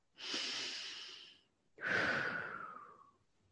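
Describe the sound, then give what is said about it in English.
A slow, deep human breath drawn in and then let out: two long airy breath sounds, each over a second, the second a sighing exhale that falls in pitch and fades. It is quiet and there is no talk. “take a slow deep breath. Let's take another one.”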